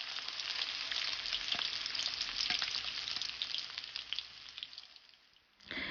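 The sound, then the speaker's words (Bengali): Chicken pieces deep-fry in hot oil raised to 170 degrees, giving a loud, dense, crackling sizzle that runs steadily, dips briefly near the end, then returns. “মুরগির মাংস নামিয়ে নেওয়ার ঠিক আগে আগে তেলের তাপমাত্রা বাড়িয়ে 170 ডিগ্রি করে নিন।”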